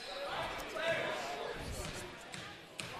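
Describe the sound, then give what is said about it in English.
A basketball is dribbled before a free throw in a close late-game moment, with a few faint bounces under a commentator's steady talk and crowd murmur. “Three dribbles, spin in the left hand. Ball is up, and it is pure.”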